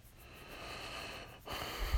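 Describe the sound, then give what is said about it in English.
A person with a cold sniffs through a congested nose. The breathy nasal sound is faint, and a stronger sniff comes near the end. “Woke up with a bit of a cold, so I apologize. You may hear some sniffs.”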